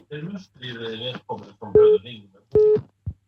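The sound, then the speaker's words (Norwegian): Telephone ringback tone on a line as a call is placed: two steady, mid-pitched electronic beeps with a pause between them, following a stretch of speech. “men her ringes det opp”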